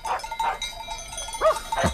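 Livestock bells clank as a herd arrives in a village drama scene, with a few irregular, fairly faint metallic rings.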